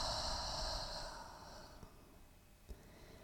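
A deep exhale pushed out through the mouth, heard alone as a long breathy whoosh that slowly fades, with a couple of tiny clicks near the end.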